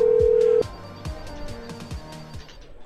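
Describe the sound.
A steady telephone tone holds for about half a second and then cuts off, followed by faint low clicks as a call is placed back to a supervisor.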